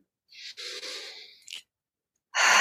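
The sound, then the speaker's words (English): A deep breath taken during a guided relaxation: a long, soft, airy inhale of about a second ends in a short puff, then another breath starts after a pause. The breathing is quiet and heard alone. “and taking a deep breath”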